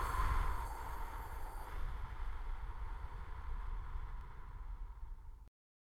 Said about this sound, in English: breaths out through your mouth with pursed lips. So it will sound like breathe in, 2, 3, 4, hold, 2, 3, 4, out